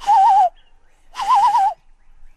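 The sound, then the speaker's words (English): A bird calls outdoors twice. Each call is a warbling, wavering tone about half a second long, and a short pause separates the two. “That bird back there. What are they saying?”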